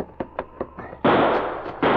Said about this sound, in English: He's somewhere up there firing at us. This'll do. I saw where the first shot came from.